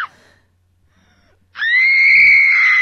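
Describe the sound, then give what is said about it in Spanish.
A long, loud scream, let out as a weekly venting ritual, bursts in abruptly after a brief faint sound and a pause. It holds a steady, high, strained pitch to the end. “eso quiere decir que llega la hora del grito de la semana”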